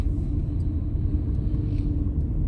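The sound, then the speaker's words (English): Low, steady road rumble from a car being driven, a continuous dull engine and tyre drone with no breaks. “And I'm just driving right now”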